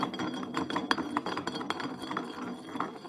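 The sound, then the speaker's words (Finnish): A glass bottle spins on a table, making a steady run of quick, light glassy clinks and rattles from start to end. “nyt meidän on aika pyörittää pulloa. No niin. Yes, eli pullo pyörii.”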